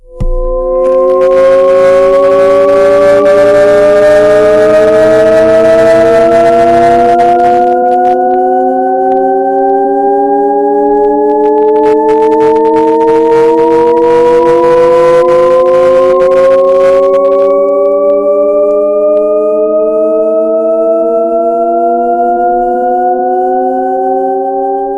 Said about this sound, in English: So that's called a shepherd's tone.